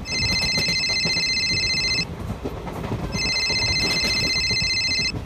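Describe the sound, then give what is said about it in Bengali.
A telephone ringing for an incoming call: two long bursts of bright, high electronic ringing separated by a short pause, set against a constant low rumbling background. “আচ্ছা বলছি আমি না একটু উঠছি আমার বাবা একটু ফোন করছে”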